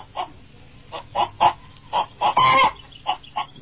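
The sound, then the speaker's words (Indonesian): A domestic chicken clucks in a string of many short, clipped clucks in an irregular rhythm. One longer, rougher squawk comes near the middle, and the clucks are clear with no talk. “Pertama, kuperkenalkan ayam negeri. Silakan berdiri.”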